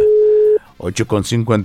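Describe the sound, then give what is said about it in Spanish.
A telephone tone sounds while calling a listener: one steady, clear mid-pitched tone lasting about half a second, which cuts off abruptly before a man starts talking. “Nos mandaba por aquí el número de teléfono para felicitar a su hijo Alfredo. Y bueno, pues ya le marcamos dos veces y tampoco.”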